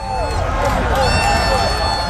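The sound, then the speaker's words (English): Argentina fans roar and cheer at Boston City Hall Plaza as Argentina scores its second goal late in a 2-1 win over England, a loud, continuous wall of crowd noise with shouting voices. “That's the sound of Boston City Hall Plaza as Argentina scored their second goal late in their 2-1 victory over England.”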